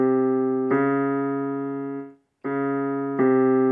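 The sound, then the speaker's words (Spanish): A minor second, two notes one semitone apart, played as sustained steady keyboard tones. One pair of notes sounds, then a brief silence, then a second pair, with no talk. “Los intervalos pueden ser ascendentes o descendentes y segunda menor suena así.”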